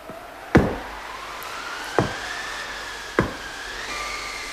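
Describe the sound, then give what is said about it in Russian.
Three separate knocks on a cottage door on a quiet winter evening, each a single sharp thud with even pauses between. A faint steady tone hums underneath. “Кто-то стучится к нам. Слышишь, Краснозорька?”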